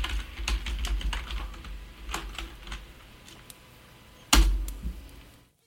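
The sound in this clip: Someone types a letter on a computer keyboard: a busy run of irregular key clicks, quieter in the middle. Near the end comes one sharper, louder clack, and the sound then fades out.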